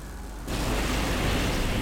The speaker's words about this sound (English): It is now exploding. I don't know why shit is exploding.